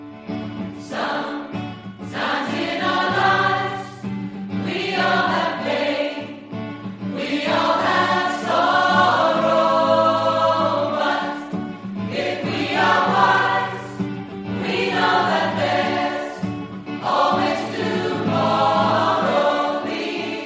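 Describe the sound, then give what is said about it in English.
A choir singing in harmony, many voices blending in sustained phrases that swell and then pause briefly between lines, loud and steady throughout. “A new choir is coming to Portobello, which could, eventually, sound like this.”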